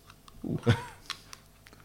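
A 7% beer being cracked open: one short, crisp burst in the middle, followed by two faint clicks in otherwise quiet surroundings.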